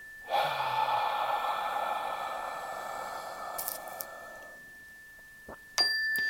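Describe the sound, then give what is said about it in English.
A long, deep exhale during a guided breathing exercise: a steady, breathy rush of air that lasts about four seconds and slowly fades, with a faint ringing tone underneath and a few small clicks at the end. “a nice deep full breath, feeling the lungs expand air into the gut. Exhaling out”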